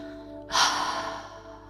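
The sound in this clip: A deep breath through the open mouth during a guided deep muscle relaxation meditation: a sudden breathy rush of air, then a long, gradually fading exhale with no talk over it.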